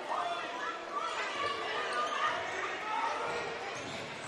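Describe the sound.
Dribbling thumps of a basketball in a high school boys' game between Columbia Central and Marshall County, mixed with crowd chatter and heard faintly beneath an announcer calling the play.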